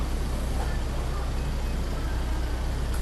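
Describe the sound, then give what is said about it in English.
Resupply trucks make a steady, unbroken low rumble and hiss of road traffic that stays level throughout, with no distinct passing events. “And there's a lot of trucks doing resupplies. You can hear those in the background.”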